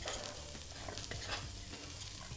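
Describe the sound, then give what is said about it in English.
Green tea batter is stirred into flour in a bowl, giving a continuous faint swishing, scraping texture with no pauses and no talk. “I'm going to put that in the flour, give it a little mix, stir everything together.”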